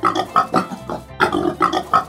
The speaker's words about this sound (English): They suggested instead that farmers focused on one breed, and this lucky pig was the large white.